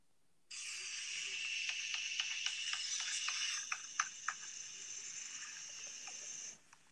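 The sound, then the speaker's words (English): A bear pops its jaws: many faint, sharp clicking pops in an irregular series over a steady background hiss, a few slightly louder near the middle. “Here is the sound of a bear popping its jaws.”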